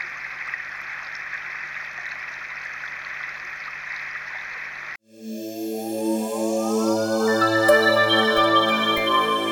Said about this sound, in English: Plugging in to number one, and the next recording will be underwater here.